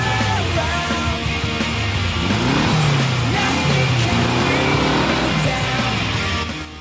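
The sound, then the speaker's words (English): A dune buggy speeds through the surf along a sandy beach, its engine a continuous drone that rises and falls in pitch over a constant roar of noise, fading only at the very end. “Sand and spray fly as Layla speeds the dune buggy through the surf. They race up and down along the sandy beach below a towering Moorish castle.”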